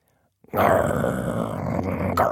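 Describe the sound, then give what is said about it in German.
A deep, rough growl from a giant flower with a lion's head. It comes in loud and abruptly after a brief silence, then holds steady for about two seconds. “Die Blume bog ihren Löwenkopf herunter zu Tilda und knurrte.”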